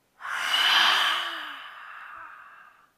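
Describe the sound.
A deep breath drawn in through the nose and then let out as one long, airy sigh. It is loud at first and tapers away over about three seconds, with no talking.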